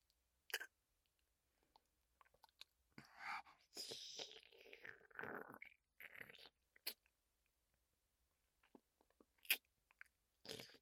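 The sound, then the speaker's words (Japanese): Soft, wet chewing and biting on a rich, jelly-like food comes in several quiet bursts of mouth sounds separated by near silence. “ゼリーみたいに濃厚で美味しそう。いただきます”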